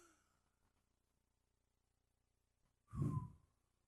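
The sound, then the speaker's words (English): One deep breath from a person: a short, breathy rush of air after a long, near-silent stretch. “Take a deep breath. That's what Jesus did. After his resurrection and before his followers changed the world, Jesus did this.”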